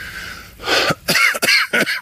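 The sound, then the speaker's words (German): Coughing from a person with a cold: a few harsh, rough coughs with a raspy, throat-clearing quality come in quick succession after a brief quiet start. “Entschuldigung, es fängt auch noch der Husten an. Ich habe mich verkühlt. Ja, dieser Husten.”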